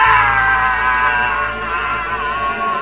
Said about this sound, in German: Hast du das gehört? Ja, der Schrei ist wahrscheinlich auch mit aufgenommen.